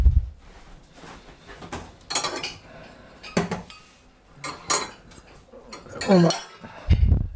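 Cutlery and dishes while a piece of pescajoune is cut and served: several sharp clinks and scrapes of a knife on a plate, spaced irregularly, with a few soft knocks in between.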